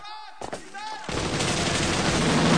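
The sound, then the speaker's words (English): Heavy gunfire in a film battle scene as a man dashes toward a schoolhouse: after a short tonal opening and a couple of sharp hits, a loud, dense barrage of shots sets in and keeps building to the end. “Hawkins dashes towards the schoolhouse under a hail of fire.”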